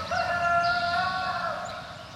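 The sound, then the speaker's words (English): A hybrid Araucana and Rhode Island Red rooster crows once, a loud, sustained, harmonic call lasting about two seconds that tapers slightly at the end, with no other sounds. “the exotic red jungle fowl is the ancestor of this hybrid Araucanus and Rhode Island red rooster?”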